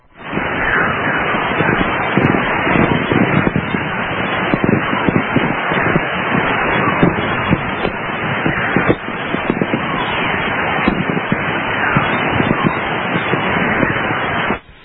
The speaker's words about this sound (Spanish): Esto pertenece a una tormenta solar, entonces. Exactamente, ahí está, pero son lo que se llamarían anomalías magnéticas que quedan plasmadas pues en ese tipo de grabaciones, ¿no?, de radioaficionados